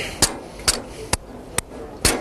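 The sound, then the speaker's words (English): A big hammer striking a team-built ball-launching machine in a competition, giving five sharp, loud blows at a steady rhythm about half a second apart, with quiet gaps between them. “And when all else fails, hit it with a big hammer.”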